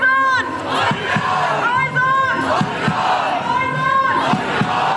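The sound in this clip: Fans chant and cheer loudly at a women's cup final between 1. FC Magdeburg and Union Sandersdorf, a dense sustained roar of many voices with a few low thumps mixed in.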